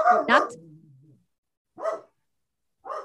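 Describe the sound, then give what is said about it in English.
A dog barks during a recording at home: a double bark that trails into a short, low whine, then two more single barks separated by silence. “I have a dog here, and I thought he was going to be quiet this whole time because he was doing so good. He did great until just now, and we're almost done.”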